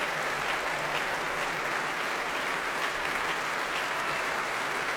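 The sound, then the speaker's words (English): Applause from a concert audience after an orchestra performance, with the orchestra standing. Thick, continuous clapping holds at a steady loud level throughout, with no distinct voices. “Promenaders cheering, hands in the air as they clap.”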